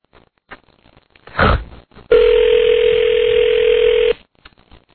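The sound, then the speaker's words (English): Telephone tone while calling a major metropolitan radio station: a short thump of the handset, then one loud, steady tone held for about two seconds before it cuts off. “And now we're trying to call a major metropolitan radio station.”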